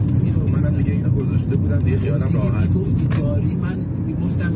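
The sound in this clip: A car drives along a road with a steady low engine rumble, while people talk over it.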